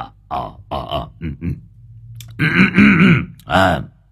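Throat clearing from an old man before he answers a phone: a few rough, gravelly bursts of throat noise separated by short pauses, with a louder, more strained stretch toward the end.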